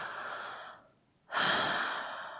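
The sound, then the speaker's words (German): Deep breaths, drawn slowly and audibly: two long, breathy rushes of air separated by a short quiet pause, the second louder and fuller, with no talking. “Denk an etwas Schlimmes, was du dir angetan hast und dann nimm mal 3, 4 tiefe Atemzüge.”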